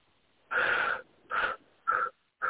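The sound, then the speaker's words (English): Wheezy breaths drawn in during a guided blessing meditation, arriving as a few separate breathy bursts with short pauses between them. The first breath is the longest, and no one talks. “Just one more breath in and integrate.”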